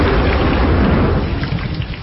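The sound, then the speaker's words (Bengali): Thunder during a storm, with wind bending the garden trees: a loud, continuous, deep rumble that holds steady, dense and heavy, through its length. “বাজ পড়ল, আওয়াজে মনে হল পৃথিবী ধ্বংস হয়ে যাবে।”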